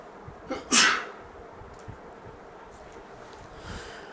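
A single sharp sneeze near the start, preceded by a brief intake, followed by a quiet background hiss with a few faint noises.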